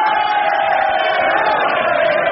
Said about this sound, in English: They cheered me until they were hoarse.